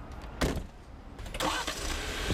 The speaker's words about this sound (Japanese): プラングラーに乗って普段からよく行くポイントに向かいます。